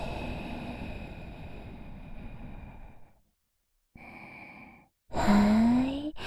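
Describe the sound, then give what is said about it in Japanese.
Guided breathing in and out: three long, airy breaths separated by short pauses, the last one louder with a slight voiced sigh rising through it, with no talking. “はい、吸って、はい、吐いて。”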